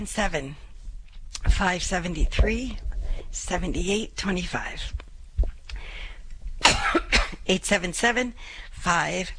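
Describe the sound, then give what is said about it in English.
Coughing and throat clearing after choking on saliva, with a few sharp, rough bursts breaking into stretches of talking throughout. “I'm inhaling my saliva.”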